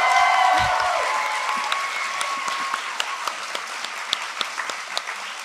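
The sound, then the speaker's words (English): Audience applause for the neuroscientists at a live comedy show. It starts fuller, then thins out into scattered individual claps that keep popping at irregular intervals as the sound fades. “And can we get a hand for all the neuroscientists in the audience?”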